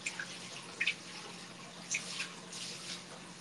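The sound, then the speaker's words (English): Hot spring bath water being stirred by hand, giving soft scattered drips and small splashes over a faint watery background, with no talking. “Onsen ASMR experience? Yes. Okay, mixing it is actually making it a lot warmer.”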